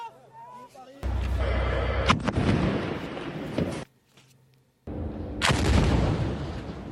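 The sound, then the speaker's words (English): Explosions from Israeli airstrikes on Gaza: two long, harsh, rumbling bursts separated by a short quiet gap, with a faint voice heard before the first blast. “This as Israeli airstrikes intensify.”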